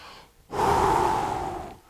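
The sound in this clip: A preacher's voice imitates a long, breathy exhale, as of Jesus breathing on the disciples. It is a single sustained breath after a brief quiet start, fairly loud and alone.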